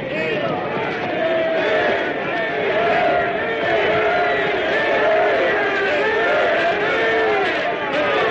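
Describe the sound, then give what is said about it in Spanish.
A crowd of townspeople and knights cheers, a dense, sustained roar of many voices shouting together at a steady, loud level with no break. “Gentes del pueblo y caballeros les vitorean para su sorpresa.”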